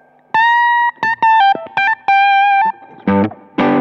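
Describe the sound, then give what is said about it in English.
Electric guitar played through an OCD overdrive pedal modeler: a few bright, ringing single notes with brief gaps between them, then two thicker, gritty strummed chords at the end. “There's like a OCD pedal for pedal fans, which sounds largely the same, but there's enough difference in it.”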